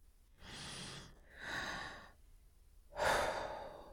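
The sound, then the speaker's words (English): A person takes three long, airy deep breaths in slow succession with quiet pauses between them. The last breath is the loudest and harshest, and there is no talk. “Deep breath.”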